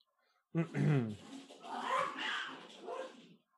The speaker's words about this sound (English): That was my cat and my dog fighting with each other.